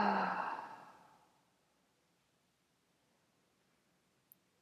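A single breathy exhale through the mouth during a guided breathing exercise, a soft airy rush that fades out within about a second, followed by near silence and one faint click.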